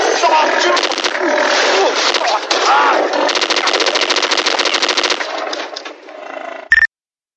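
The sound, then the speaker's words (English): Rapid bursts of gunfire crackle almost without pause for about six seconds in a gift shop, dense and loud, with sharp cracking and splintering impacts mixed in, before thinning out and cutting off abruptly. “What were those noises? This is not meant to be happening. What was that? Was it a gun? It sounded like a gun to me”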